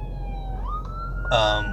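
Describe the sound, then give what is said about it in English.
An ambulance siren passes behind a car: a steady wailing tone steps up in pitch, then swells louder near the end over a low engine rumble. “be lucky it's not me in this ambulance. I gotta get out of the way because it's right behind me.”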